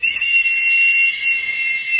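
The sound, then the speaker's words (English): A toy whistle from a 1960s Captain Crunch cereal box is blown in one long, steady, shrill high-pitched tone that holds for about two seconds, with no talk. “That, friends, is an authentic Captain Crunch whistle. dug out of a 1960s cereal box and used to route phone calls for many decades until they fixed the whole system.”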